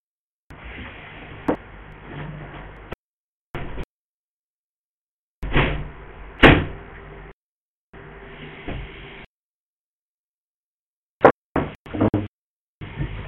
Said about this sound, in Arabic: أستاذنكم لحظة بس اقفل البلكونة عشان تسمع صوت الشارع.